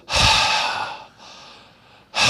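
An audience breathing out together during a sermon: a loud, breathy rush of air, then a softer sustained exhale, with another strong breath starting just at the end.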